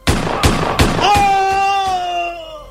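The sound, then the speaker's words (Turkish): Gunshots in a radio-drama shootout: a rapid run of sharp, loud bangs, about four strong ones in the first second, followed by fainter hits and a lingering tonal ring. “Öldürdüm. Öldürdüm onu. Ama o da beni vurdu.”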